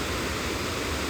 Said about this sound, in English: Just as the water comes over and it goes white as it makes its way over the jagged rocks and stuff.